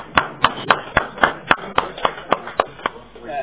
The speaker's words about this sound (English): Those remarks require an applause